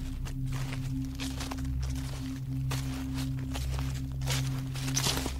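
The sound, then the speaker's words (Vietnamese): Footsteps crunching and rustling over dry fallen banana leaves in a banana garden, a soft, steady series of crisp, scratchy steps at an even walking pace. “Bước chân của nó dẫm lên những tàu lá chuối khô rụng xuống sột soạt.”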